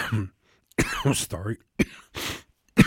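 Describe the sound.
A person coughs and clears their throat a few times in short, harsh bursts, separated by silent gaps and mixed in among brief stretches of their talking.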